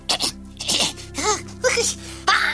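A person sneezes, with a few short breathy, voiced gasps leading up to a sharp, loud final burst, and no talk.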